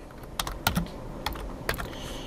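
Computer keyboard typing as code is entered: a quick, irregular run of sharp, clicky keystrokes separated by short pauses, fairly faint, with no talk.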